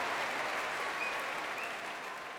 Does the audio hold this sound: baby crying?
no